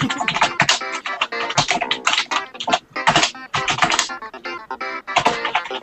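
Loud typing on a computer keyboard: many rapid, sharp keystrokes clatter in a dense, uneven stream, with brief pauses between bursts.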